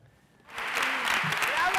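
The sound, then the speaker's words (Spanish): Applause from the audience at San Sebastián for Los Javis' film La bola negra, inspired by Lorca, a long festival ovation. After a quiet half-second opening, dense, steady clapping swells in and stays loud to the end. “Es la ovación que recibió la bola negra de los Javis. Aplausos durante 15 minutos en San Sebastián para esta película inspirada en la figura de Lorca y ya premiada en Cannes y Toronto.”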